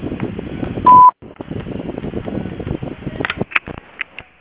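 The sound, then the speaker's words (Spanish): A voicemail system gives a single short, steady beep before message recording begins, sounding once over a phone line between stretches of muffled, band-limited line sound. “Si desea, deje su mensaje en la casilla de voz. Después del tono, grabe el mensaje.”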